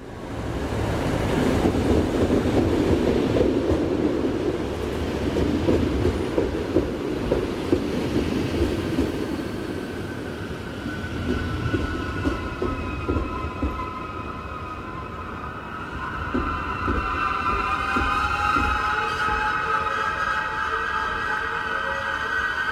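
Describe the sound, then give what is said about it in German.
An express train pulls into a large city station, a dense, continuous rumble with clattering texture. High sustained squealing tones emerge and linger through the latter half. “Auf Gleis 7a ist eingefahren der Schnellzug 203 Schweiz Express von Amsterdam nach”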